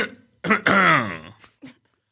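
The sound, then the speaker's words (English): A man clears his throat: a brief rough burst, then a longer gravelly, voiced rasp, followed by a couple of faint short tails, loud and otherwise alone. “That was the only throat clearing I recall from that 26-minute interview clip”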